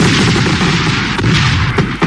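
Colored fireworks go off, blue and green among them, in a loud, dense, continuous barrage of crackling and booming bursts, with several sharper pops toward the end.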